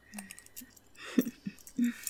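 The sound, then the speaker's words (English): Metallic clicks and rattles of a lock snapping shut, a few sharp, bright transients in quick succession over a quiet background. “each time you hear a lock, click, shut,”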